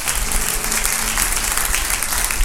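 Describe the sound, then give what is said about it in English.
Church audience at Northview Harvest Ministries applauding. Dense, continuous clapping holds at a steady level throughout. “Let's give him a hand again.”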